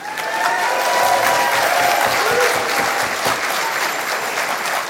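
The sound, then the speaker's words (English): Audience applause for the state-level affiliates of an organization: dense, loud clapping that swells quickly and holds steady for about five seconds. “So thank you, and congratulations to all the affiliates that have done this state-level work. Let's give yourselves a hand.”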